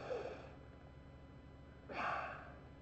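Two soft, airy breath sounds: a deep breath drawn at the start, then a second breath a couple of seconds later. Each is brief and breathy, with faint noise between them.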